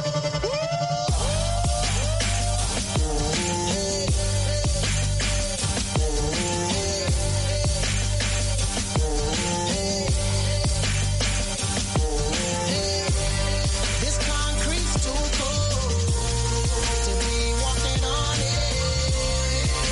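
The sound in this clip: A song plays loudly and continuously, with a melodic lead vocal over deep bass and a steady beat throughout.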